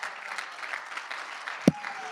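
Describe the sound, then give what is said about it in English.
A church audience claps in steady rhythm during a lively sermon, many hands keeping an even beat at moderate volume, with one louder thump near the end. “Come on, I don't see you clapping like you used to clap.”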